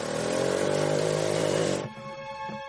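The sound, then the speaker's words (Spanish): A motorcycle riding off in the rain drones loudly at a steady, even pitch for about two seconds, then drops off sharply, leaving a much quieter background. “Se pone el casco y se aleja en la moto bajo la lluvia.”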